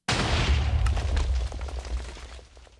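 Automatic cannon firing and its shots landing in the Minecraft video game: a loud, crackling explosive boom with deep rumble that holds steady for over a second, then fades into a quieter, sputtering decay.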